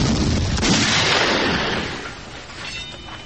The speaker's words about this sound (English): 500 pounds of high explosive blew the bodies of the two men high into the air.